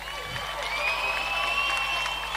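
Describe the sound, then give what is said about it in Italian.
A crowd applauds and cheers for a performer at a live show, a fairly faint, steady wash of clapping with sustained tones held over it. “Io chiedo, ragazzi, un big applauso per fucking Flame, per favore, ragazzi.”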